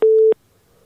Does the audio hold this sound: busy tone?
yes